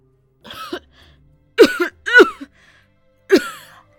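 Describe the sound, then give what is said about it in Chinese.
Harsh, raspy coughing fit from an injured martial arts master. Four rough, throaty coughs come in short bursts separated by brief pauses, with the middle two close together. “咳了好一阵儿，这才缓过气来，嘶声道”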